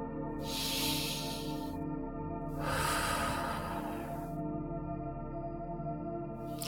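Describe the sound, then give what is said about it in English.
A deep cleansing breath during a guided meditation: a long, hissing inhale followed by a longer, slow exhale. Both are soft and airy, with sustained, gentle musical tones underneath. “Let's do some more cleansing breaths now to finish this meditative journey. Let's do those breaths now together. Here's breath one.”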